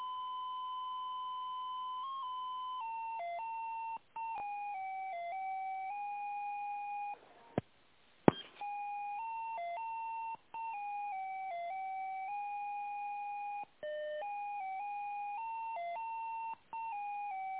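Electronic tones play over a business phone line while a call is being transferred, a steady two-tone signal stepping up and down in pitch like a simple melody, quiet and continuous with a few brief dropouts.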